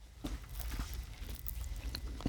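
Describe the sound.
Someone bites into and chews a fried fish snack with a tartar sauce filling, making a few soft, quiet crunches spread across the moment, with no talking.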